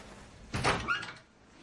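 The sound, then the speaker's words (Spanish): A door is opened: a short burst of knocking and rattling clunks lasting about half a second, then near silence, with no voices. “Se revuelve de nuevo. Luego, abre la puerta.”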